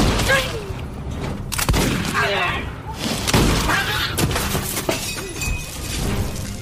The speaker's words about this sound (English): One of them just bumped over the oil lamp.